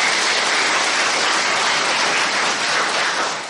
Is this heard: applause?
yes